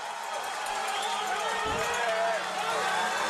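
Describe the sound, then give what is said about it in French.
Spectators cheer wildly for a home race, a steady dense roar of crowd noise that fills the whole clip while a commentator talks over it. “Écoutez, écoutez le public déchaîné.”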